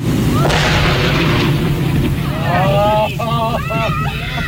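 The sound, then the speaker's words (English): A heavy dynamite blast, about half a ton used to blow up a dead whale on a beach, booms out sharply near the start, then a rumbling wash lingers as raised voices follow. “It couldn't be cut up and then buried because nobody wanted to cut it up, and it couldn't be burned. So dynamite it was, some 20 cases or a half ton of it.”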